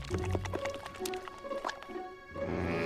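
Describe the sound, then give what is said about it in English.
Drool dripping onto a man's face as he lies in bed: several soft, wet drips and squishy splats, moderately quiet, scattered irregularly across a few seconds. “Drool drips on his face.”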